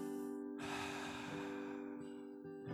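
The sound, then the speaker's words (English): A slow, breathy exhale with a soft 'ha' during a calming guided breathing exercise, a long airy rush over a steady, sustained tonal background. “Exhale out. Focusing in your breath. Hearing that HA sound as you breathe in and out.”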